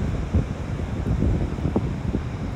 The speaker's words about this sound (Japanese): 面白い感じでねあの波が打ち寄せていて